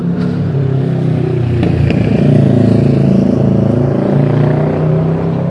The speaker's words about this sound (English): There's a lot of cars out.